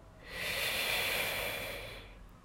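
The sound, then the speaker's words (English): Deep breathing during a guided breathing exercise: a single long, steady breath of soft airy hiss that swells and then fades, with no talk over it. “So now we'll take a deep breath in and out. And in.”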